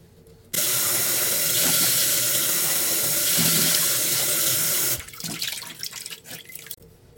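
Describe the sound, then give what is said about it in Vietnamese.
Running tap water as a face is rinsed clean after massaging in a foaming cleanser: a steady, loud rush for about four seconds, then irregular splashing and dripping as the flow stops. “Cứ mát xa khoảng tầm 1 phút nữa, sau đó thì mọi người rửa mặt sạch lại ha.”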